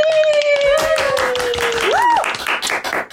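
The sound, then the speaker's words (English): An audience claps to welcome a comedian to the mic: a dense burst of applause with a voice heard over it, fading out at the end. “Everybody, please put your hands together”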